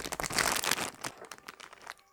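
A crinkly packet of Halloween snacks is torn open. Quick, irregular plastic crackles are busiest in the first second, then thin out to a few sparse crinkles. The whole sound stays quiet and carries no voices.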